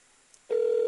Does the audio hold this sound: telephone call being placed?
yes